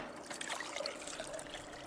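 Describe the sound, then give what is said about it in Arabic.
Water trickling as it is added to powder at a document restoration table: a steady, soft, continuous pour with no break. “طاولة البودرة رقم 3 تفضل زيد الماء شوي.”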